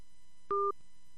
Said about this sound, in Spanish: como que se cortó la llamada